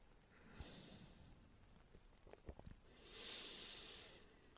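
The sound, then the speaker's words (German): Slow breathing during a guided yoga exercise: a faint, airy inhale, a quieter pause while the breath is held, then a soft, longer exhale. “Einatmen. Moment halten die Luft und wieder ausatmen.”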